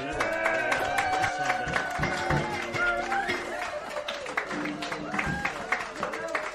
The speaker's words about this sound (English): We have an audience here tonight. Can we hear our